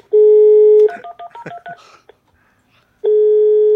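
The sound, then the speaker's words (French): Telephone dialing tones as a call is placed: a steady tone, then a quick run of short touch-tone beeps, a brief silence, and the steady tone returning, loud and alone. “Alors, nous allons appeler une auditrice en Loire-Atlantique.”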